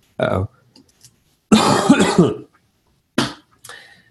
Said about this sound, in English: I'm sorry, I just coughed all over your ears.